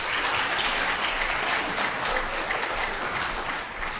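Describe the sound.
An audience applauds to welcome a speaker, a dense, steady wash of many hands clapping at even loudness that eases slightly near the end.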